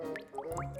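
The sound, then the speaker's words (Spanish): Water from a leaking roof drips into assorted containers, including a large cookie tin. A few faint drops land with small plinks, each rising quickly in pitch. “Ese es el sonido de una gota cayendo en varios envases que te regaló tu tía en Navidad.”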